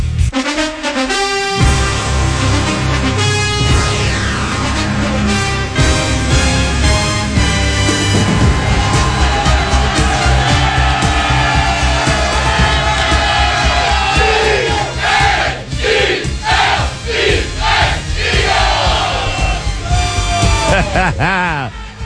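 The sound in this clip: Loud, sustained roar of a crowd of football fans cheering a team at a 13-1 record, a dense wall of cheering and shouting voices that holds steady and strong from start to finish.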